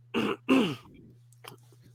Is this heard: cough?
yes

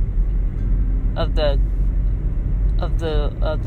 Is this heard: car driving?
yes

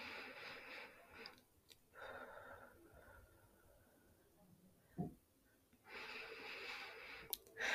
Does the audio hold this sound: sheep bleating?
no

